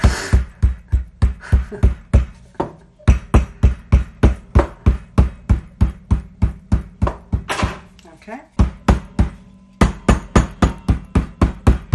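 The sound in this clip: Puff pastry dough, rolled and folded in half, is beaten by hand in steady rhythmic thumps. There are many loud blows, evenly paced with a brief pause near the middle.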